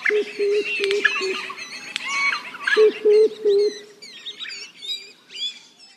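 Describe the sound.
Songs of threatened Australian bird species are heard. A run of five low, evenly spaced cooing notes is followed later by three more, while higher chirps and thin whistles scatter over the top throughout.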